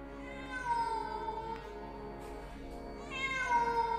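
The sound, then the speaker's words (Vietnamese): A cat meows pitifully, wailing in a couple of long, drawn-out cries with wavering pitch and a clear harmonic tone. The sound is fairly loud and steady, with no talk. “Bỗng có tiếng mèo kêu, nghe thảm thiết vô cùng.”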